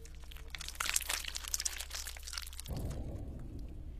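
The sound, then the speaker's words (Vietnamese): Neck bones cracking and snapping: a faint, dense run of crunching, crackling snaps for about three seconds, then a low, steady rumbling noise. “Thậm chí chị Thương còn nghe rõ là cái tiếng xương cổ của nó gãy răng rắc.”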